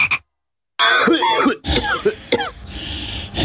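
Frog croaking, given as a little frog: loud rough croaks and rasping calls in a few bursts, with a brief opening call, a short silence, then two longer runs of throaty croaks, heard alone.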